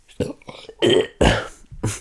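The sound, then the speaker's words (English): A person burps in a few short, low, guttural bursts, loud and close, with brief pauses between. “That was a burp, sorry.”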